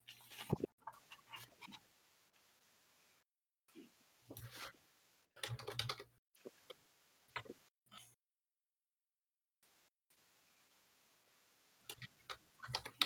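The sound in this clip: Typing on a computer keyboard: quick clicking keystrokes come in several short bursts separated by pauses and stretches of near silence, fairly faint overall.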